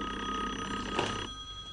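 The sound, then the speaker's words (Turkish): A telephone bell rings in a steady, continuous trill, a sustained bright ring at a fairly low level with no talk over it. “Telefon.”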